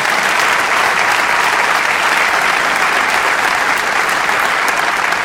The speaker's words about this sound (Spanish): Así que le damos un aplauso al Señor.